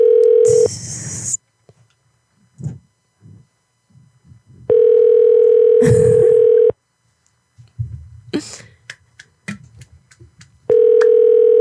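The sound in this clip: A telephone call ringing out: three long, steady ringback tones, separated by pauses filled with faint rustling and murmuring.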